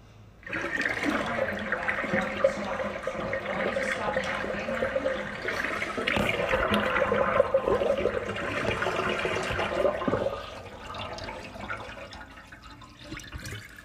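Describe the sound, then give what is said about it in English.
Water drains with a steady, rushing wash that holds for about ten seconds, then tapers into a softer trickle near the end. “Sorry about that draining sound.”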